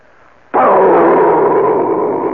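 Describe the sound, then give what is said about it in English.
An atomic explosion sound effect: a sudden loud boom that swells straight into a dense, sustained rumbling roar, holding steady for about two seconds and easing only slightly. “That is the sound of an atomic explosion”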